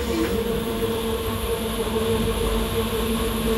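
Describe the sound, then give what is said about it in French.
A Corail passenger train passes as a steady, loud rumble with a low droning hum that holds from start to end, with no voices. “Donc c'est un corail, quoi. Train corail. Ça arrive régulièrement.”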